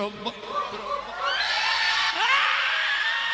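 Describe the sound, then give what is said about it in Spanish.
Women and girls in an audience scream together after a brief moment of speech, a swelling mass of high-pitched, overlapping shrieks and whoops that stays loud to the end. “Venga, los gritos de las mujeres y de las chicas, ¿eh? Venga. Un, dos, tres.”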